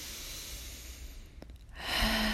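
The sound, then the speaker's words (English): A deep breath: a soft airy hiss that swells into a fuller inhale near the end, over a faint steady background hiss, with no talk. “Take a deep breath.”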